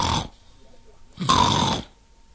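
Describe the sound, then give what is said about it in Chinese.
A person fakes snoring while sitting on a doorstep. Two harsh, rasping snore sounds are heard, the second louder and longer than the first, with quiet between them. “小雨墨坐在门槛上，也装着打呼噜。”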